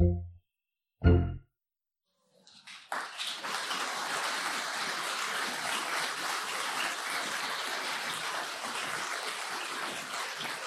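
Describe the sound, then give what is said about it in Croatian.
Audience applause after a winning entry in a case competition: two brief low thumps, then a dense, steady roar of clapping that lasts about eight seconds. “Bakica je pobjedila u ovom kejsu, šteta što nema prezentera, ali javit ćemo im da je bio veliki aplauz.”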